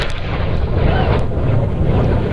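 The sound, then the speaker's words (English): A Blue Origin rocket explodes on its launch pad during a static fire engine test, heard as a loud, dense rumbling roar with buffeting low-end noise that stays continuous through the short span, with no voices. “space company Blue Origin was testing its new rocket when it suddenly exploded on the launch pad. The Blue Origin rocket exploding during a test of its engines.”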